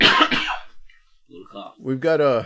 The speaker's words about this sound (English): we've got a cough. And a lot of mucus.